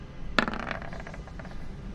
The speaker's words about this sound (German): meine kleine Probe würfeln. Da habe ich 40.